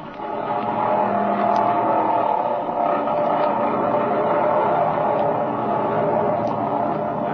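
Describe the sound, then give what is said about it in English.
A propeller airplane engine revs for takeoff down a runway, a loud, steady droning roar that holds throughout with slight swells. “All right, let's take off. Get in that front cockpit and I'll ride the rear. She's all ready to go, boys. There we are. All set, Speed. Take her away.”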